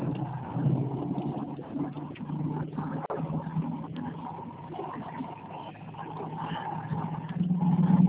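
Low, steady rumble inside a car being driven, heard over a phone call; a constant muffled drone with no distinct events that swells slightly near the end.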